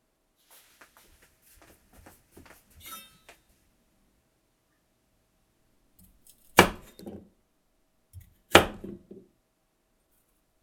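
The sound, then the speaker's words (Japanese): A knife chops green onion and carrot into a coarse mince and dices potato, giving a few sharp, loud knocks spaced by quiet gaps after some faint rustling. “ねぎと人参は大きめのみじん切りにして、じゃがいもはさいの目切りにします。”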